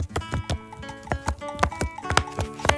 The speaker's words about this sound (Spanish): Llegó una carta de un sobre... que se parece al patio de mi casa, que es muy particular. Es así rojito, es como muy moderno sobre. Así suena, miren.